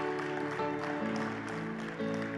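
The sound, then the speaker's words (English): Applause from a church audience, a steady clatter of clapping that carries on for the whole stretch with sustained tones underneath. “Thank you, sister. Let's give her a great big hand.”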